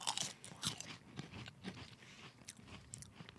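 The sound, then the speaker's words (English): Crunching and chewing of Utz honey barbecue potato chips with a little kick: many irregular crisp bites and grinding chews, faint, with no talking. “These, to me, taste more like traditional barbecue chips.”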